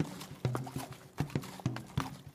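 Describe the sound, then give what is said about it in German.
Horse hooves clip-clop as riders pass through a forest in the early morning. The hoofbeats are faint and fall in a steady walking rhythm, often in close pairs, with no other sound. “Und ihr reitet durch den Wald und scheint in Von anzukommen”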